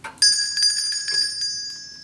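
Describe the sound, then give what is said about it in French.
A small bell rung at a door, struck sharply and leaving a bright, high, ringing tone that sustains and slowly fades over about two seconds. “Arrête un peu de sonner la clochette”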